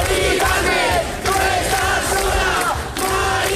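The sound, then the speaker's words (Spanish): A protest crowd chants in the street during an overnight protest at an encampment with tents. Loud massed voices shout in repeated phrases, with two short dips between phrases. “Este es el sonido de la protesta que durante toda la noche acompañaba a Mari Carmen.”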